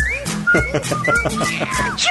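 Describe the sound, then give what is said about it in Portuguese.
A person whistles a short, catchy tune in clear, sustained notes that shift in pitch, with a low voiced sound underneath. “Eu vou começar assoviando a musiquinha que não sai da cabeça, que é...”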